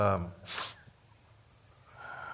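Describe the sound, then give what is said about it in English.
A single sharp, breathy sneeze bursts out just after a brief voiced intake, then gives way to low, faint noise with a soft sound returning near the end. “Y'all help me sneeze so I can get this over with.”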